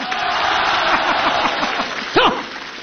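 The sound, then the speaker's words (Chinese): Audience applause at a live comedy crosstalk show: steady, dense clapping that fills the whole stretch, with a voice speaking over it and a brief louder swell near the end. “那边的朋友掌声不够热烈呀。这边朋友给他起个哄啊。”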